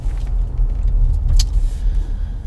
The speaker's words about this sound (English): So, driving to work.